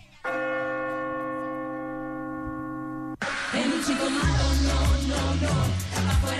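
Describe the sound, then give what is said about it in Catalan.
A bell strikes the sixth chime of a New Year's Eve midnight countdown, one clear sustained ringing tone rich in overtones that holds evenly for about three seconds before a louder burst of mixed noise and deep low tones cuts in. “Vinga, sisena campanada.”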